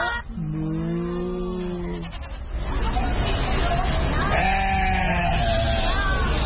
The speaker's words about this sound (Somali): Nuura, neefka halkaa taagan ee laxda ah ee wixii maxaad af Ingiriis ahaan ugu yeertaan? In English they are called sheep.